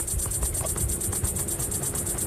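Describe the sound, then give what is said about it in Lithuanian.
Cicadas buzzing in a Mediterranean summer: a loud, high, continuous drone pulsing in a quick, steady rhythm, with no voices. “net grįžus namo, ausyse zirze, kas, aišku, cikados. Jų skleidžiami aštrus ir labai stiprus garsai”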